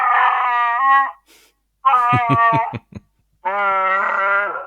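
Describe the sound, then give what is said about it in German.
A small plush toy about 20 centimetres tall roars when its belly is pressed: three loud, howling electronic roars, the middle one broken by a rapid stuttering pulse, with short gaps between them. “So ein kleines Chewbacca-Plüschtier. Und wenn man dem auf den Bauch drückt, dann macht er folgendes Geräusch.”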